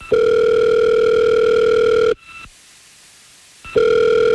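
Ringback tone of an outgoing phone call placed by radio hosts: a loud, steady buzzing tone lasting about two seconds, then a stretch of near silence, then the same tone starting again.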